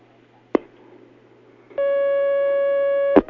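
A telephone line tone sounds as a call comes in on a call-in question line. A single click is followed after a pause by a steady, buzzy, single-pitched tone lasting over a second, which is cut off by another click.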